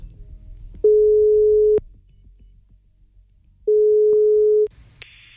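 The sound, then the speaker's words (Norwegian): Telephone call tone while placing a call: two long, steady mid-pitched tones of about a second each, separated by a silent gap, followed by a short, higher beep at the end. “La oss ringe.”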